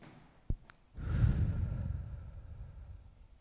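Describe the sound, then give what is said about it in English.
A deep breath during a guided breathing exercise, in through the nose and out through the mouth: a brief soft click, then one long, breathy, airy exhale that holds steady and slowly fades. “We're going to take a few deep breaths. And we're going to inhale through our nose, if you're able, and out through your mouth.”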